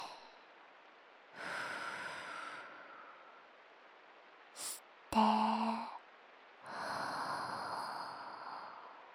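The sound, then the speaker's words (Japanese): Deep breathing in and out during a guided relaxation: a slow, soft breath drawn in, a brief mouth sound, then a long, gentle exhalation. The breathing is faint and steady, with no talk. “ちょっと深呼吸しよっか。吸って吐いて、”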